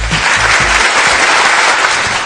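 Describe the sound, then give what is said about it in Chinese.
Applause greeting a pitch for a budget one-day group tour, loud and dense clapping sustained evenly throughout. “你就说此处是不是得有掌声”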